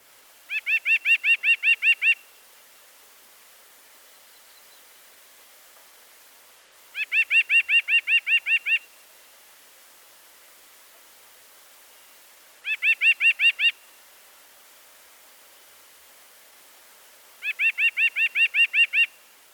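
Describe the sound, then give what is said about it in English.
A nuthatch sings its song of one nasal note repeated rapidly: four separate high-pitched bursts, each a quick, even string of identical notes lasting about two seconds, with quiet gaps between them. “The nuthatch's song is also a repeated single note. It too has a nasal quality, but the tone is quite different. Here it is.”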